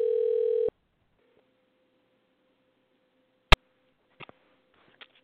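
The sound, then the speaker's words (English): A telephone being dialed for a call: a steady dial tone sounds briefly and cuts off, then a sharp loud click and a few fainter clicks follow over a faint electrical hum. “Let's dial and see what happens. See who we get.”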